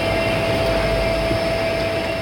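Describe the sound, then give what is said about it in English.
Caravan propeller plane flying a disaster response team into a hurricane-struck area of the Bahamas: a steady, loud engine drone with a constant tonal hum, unchanging throughout, with no voices. “What you just heard was our Samaritan's Purse caravan plane with members of our Disaster Assistance Response Team, or DART, flying into one of the areas of the Bahamas”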